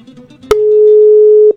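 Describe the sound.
A telephone tone sounds while a call is being placed: a click, then one steady, pure, mid-pitched electronic beep held for about a second. It is loud and plain, and it cuts off abruptly.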